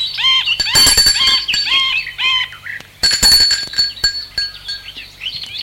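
A bell is rung in two bright, rattling metallic bursts separated by a pause, with thinner high ringing tones between them.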